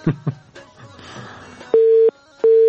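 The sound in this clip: Telephone busy tone after a listener's phone call dropped: two loud, steady, mid-pitched beeps of equal pitch, separated by a short gap. A few short clicks and a faint murmur come before them.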